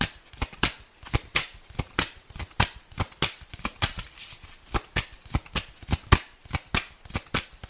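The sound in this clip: Tarot cards being shuffled by hand, with many crisp riffles and snapping flicks in a busy, uneven rhythm that runs without talk.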